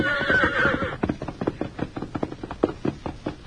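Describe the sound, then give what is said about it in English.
A thoroughbred horse gives a short whinny, then trots, its hooves striking in a quick, steady clip-clop of many sharp knocks. “A little slow trot will do for a starter. Come on, boy. Eagerly, the thoroughbred trotted forward,”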